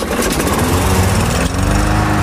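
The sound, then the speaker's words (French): A lawn mower engine runs loud and steady, its rough mechanical drone holding almost constant, with a brief dip partway through before it carries on. “case 29. La tondeuse.”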